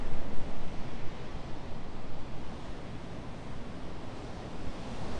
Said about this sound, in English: Today we have wind here.